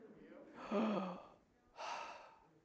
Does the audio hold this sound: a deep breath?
yes